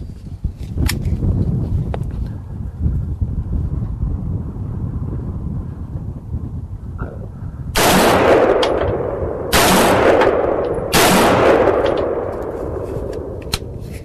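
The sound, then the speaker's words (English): Three gunshots fired rapidly from a gun magazine at a target: loud, sharp cracks about a second and a half apart, each ringing out briefly over a low, rumbling background. “assuming I still have 3 rounds of the magazine, going to try to fire 3 rounds as quickly as I can, regaining between rounds my aim on the target.”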